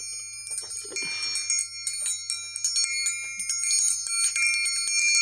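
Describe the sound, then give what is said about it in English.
A cheap metal triangle is struck repeatedly, giving bright, piercing, high-pitched rings that overlap and sustain between the many quick hits. “I bought a triangle.”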